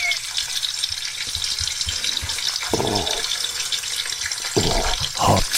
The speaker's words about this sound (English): There's them sausages, isn't there?